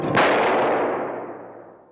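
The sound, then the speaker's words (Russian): A single pistol shot fired in a duel, a sharp, loud crack followed by a long, fading tail, with no voices. “Граф выстрелом сбивает Сильвио фуражку.”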